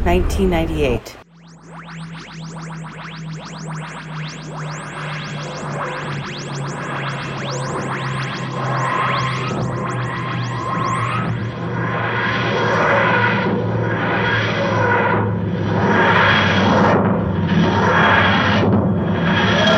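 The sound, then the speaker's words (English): A TARDIS landing effect from a Doctor Who audio drama: rhythmic, grinding whooshes that pulse over a steady low hum, the cycles quick at first, then broadening and spacing out as they grow louder. “The TARDIS lands with a heavy thump in Central Park.”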